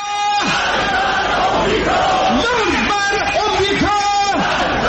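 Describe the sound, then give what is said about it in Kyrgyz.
Massed voices chanting anti-US slogans at a pro-government street demonstration, loud and continuous, with shouted phrases rising and falling in a rhythmic pattern throughout. “мамлекеттик телеканалдар түз чагылдырган демонстрациялар учурунда азыркы саясий режимди колдогон, ошол эле учурда бийлик айыптаган чет мамлекеттерде, анын ичинде АКШны жектеген уран чакырыктары айтылып жатты.”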